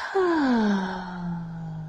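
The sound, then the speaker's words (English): A deep, audible breath that comes out as a voiced sigh, its low tone sliding gently downward and trailing off, with no talking. “Breathe in. And out.”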